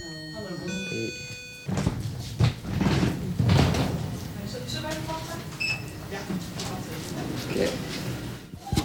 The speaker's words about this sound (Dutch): Ik zorg altijd even dat de kamerdeur dicht is ook.